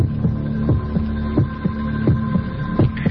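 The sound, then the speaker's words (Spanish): Heartbeat, said to come from a February 1961 spaceflight recording, pulses as a steady series of low, dull thumps over a constant background hum. It sounds alone, without talk. “Latidos de corazón”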